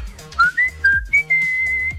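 Someone whistles a short tune: four brief, clear notes stepping upward in pitch, then a final longer held note. The whistling is loud and heard alone.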